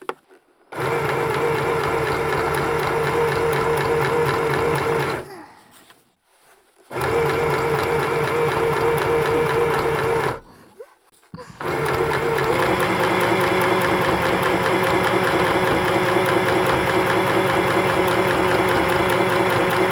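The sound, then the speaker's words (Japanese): Steady mechanical whirring of a sewing machine stitching small, detailed sections, running in three stretches split by two short pauses, with a fast, even pulse and no voices. “細かいところ縫うのが多めな箇所なので、たくさんの小気味いい音を楽しんでください。”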